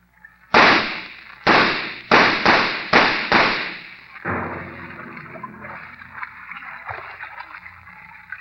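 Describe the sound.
Gunshots ring out in a tense standoff, six sharp, loud cracks fired in quick, uneven succession, each with a short decaying tail, followed by a lower, steady rumbling noise that carries on to the end.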